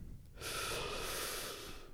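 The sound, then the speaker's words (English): A single long breath, an airy rush of about one and a half seconds that starts abruptly and stays fairly even, quiet and with no voices. “That was my breath.”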